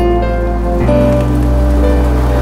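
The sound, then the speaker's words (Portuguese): Steady rain falls in the early morning hours as a dense, continuous patter under sustained low musical tones that hold and shift a few times. “Chove, é madrugada e ainda chove.”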